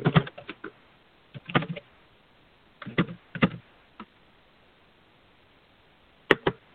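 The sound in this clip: Typing on a computer keyboard comes in short bursts of light clicks, separated by pauses, with a lone keystroke near the end and no talking.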